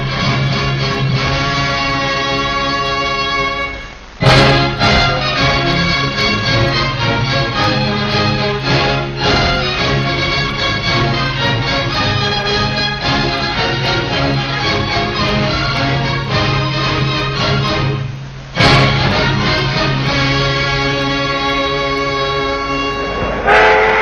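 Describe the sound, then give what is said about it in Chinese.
Brass-heavy orchestral fanfare from a classic Chinese military film studio's opening logo, heard at the start of a 1960 flood-relief film. Loud, sustained and harmonically rich, it swells sharply twice, with no voices. “我们现在听到的这样的声音，可能大家觉得很古老哈，八一电影制片厂当年的这一段很经典的一个片头一直被保留到今天”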